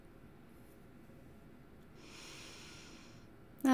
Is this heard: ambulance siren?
no

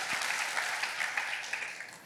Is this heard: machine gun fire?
no

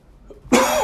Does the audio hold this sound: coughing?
yes

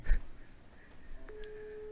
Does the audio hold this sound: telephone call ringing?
yes

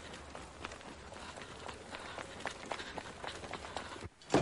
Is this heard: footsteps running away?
yes

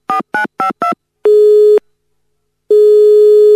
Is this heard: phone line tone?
yes

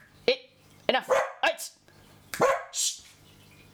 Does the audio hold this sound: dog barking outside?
yes

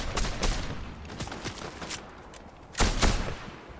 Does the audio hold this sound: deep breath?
no

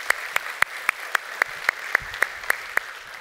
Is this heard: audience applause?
yes

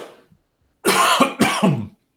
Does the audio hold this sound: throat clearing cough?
yes

